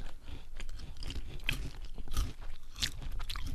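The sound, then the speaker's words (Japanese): Pineapple-flavoured potato chips being crunched and chewed, with many crisp, irregular bites and grinding crunches close to the mouth and no talking. “これポテトチップスってね。 パインパインパインパインやね。よいしょ。はい、いただきます。”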